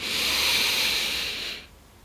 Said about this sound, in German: und dann möchte ich dich dazu einladen, dass du einmal ganz, ganz tief mit mir gemeinsam einatmest